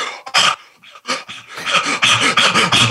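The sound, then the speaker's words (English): A person demonstrates extreme overbreathing: loud, rapid, forceful breaths in quick succession, starting in short separated bursts and becoming a denser, steadier run of heavy panting. “That's how you breathe, and you do it for about 3 hours. So what happens is it's extreme overbreathing.”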